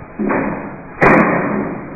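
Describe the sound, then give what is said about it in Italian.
Chairs are handed out with two heavy thuds, each followed by a short rumbling rattle. The second knock is louder and carries a brief sharp click on top. “Le sedie si distribuiscono”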